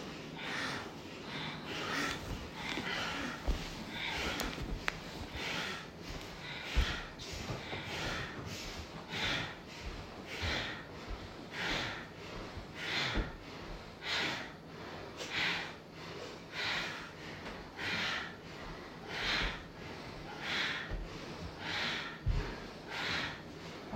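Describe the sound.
Bhastrika yoga bellows breathing: many forceful, rapid breaths pumped through the nose in a steady, even rhythm, each a sharp breathy burst, continuing throughout with no talking.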